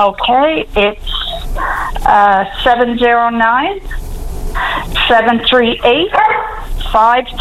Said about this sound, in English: With a bark in there.